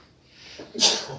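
A single sneeze: a soft breathy intake swells into one sharp, hissing burst that fades quickly.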